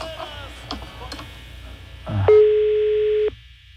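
A telephone ringback tone on an outgoing call to a lash and makeup business: one steady, mid-pitched tone lasting about a second, preceded by faint clicks and low background noise.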